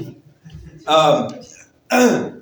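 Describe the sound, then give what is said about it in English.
A preacher coughing mid-sermon: two loud, rough bursts of throat-clearing coughs about a second apart, with a quieter murmur of breath before the first. “I'm about to cough.”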